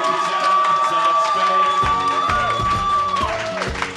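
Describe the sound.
Live audience cheering and whooping at Beauty Bar in New York City, a loud, continuous crowd roar with raised voices and yells running throughout.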